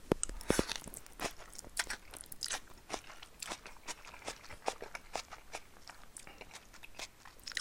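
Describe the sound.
Crunchy chewing of spicy instant bag noodles with lightly boiled bean sprouts: many crisp, irregular bites and crunches, fairly quiet, alone without talk.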